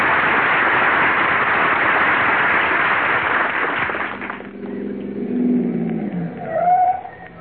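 A car pulls up as a sound effect in an early-1950s radio comedy. A steady, rushing motor rumble cuts off abruptly and gives way to a quieter, lower hum.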